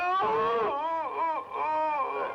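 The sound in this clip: A person cries in wailing, wavering sobs, several drawn-out voiced moans that bend up and down in pitch and run together with brief catches between them, fairly loud and with no other talk.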